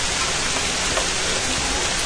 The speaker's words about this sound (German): Leider ist es wie bei fast allen Outdoor-Tasting dieses Jahr, dass es regnet.